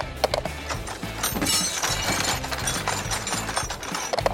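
Rummaging through a toolbox makes a busy, continuous jumble of ratcheting, knocking and clanking hits, dense and fairly loud throughout, with no talk.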